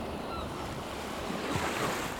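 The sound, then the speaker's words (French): Choppy sea waves slap and wash around a sailing boat carrying a figurehead, a steady rushing surge with wind noise over the microphone, moderately loud and continuous with no voices. “La figure de proue tient bon, même quand le gros clapot la menace.”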